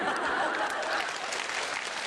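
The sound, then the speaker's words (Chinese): A crowd applauds at a Taiwanese crosstalk comedy performance. The clapping is steady and full, starts slightly louder and then settles to an even level for the rest. “原来我就这么值得鼓掌是吧？”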